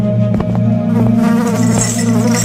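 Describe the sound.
Flies buzz around sores on chained legs in a jail, a loud, continuous droning hum with steady low tones and no breaks.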